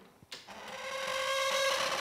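An unoiled mechanical smoking-machine artwork squeaks as it runs: after a couple of soft clicks, a steady, high, harmonic squeal sets in and grows gradually louder.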